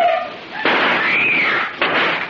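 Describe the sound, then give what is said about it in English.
Gunshots in a radio drama, fired near a deep, flowing stream: two loud, sharp bursts, each spreading into a long, noisy roar that keeps the sound high between shots. “While Casey and Ali seek a means of crossing the channel, they are warned of approaching danger by several shots, and Amira screams for help.”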